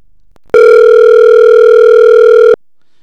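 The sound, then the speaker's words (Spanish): A telephone ringing tone while placing a call, a single loud, buzzy tone that holds at an unchanging pitch for about two seconds, then cuts off abruptly into quiet. “te estamos llamando”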